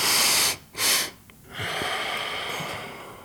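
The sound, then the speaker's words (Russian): Deep breathing in through the nose during a breathing exercise: two short, forceful nasal breaths, then a longer, steady airy breath, with no talk. “Опять глубокий вдох и еще раз носом.”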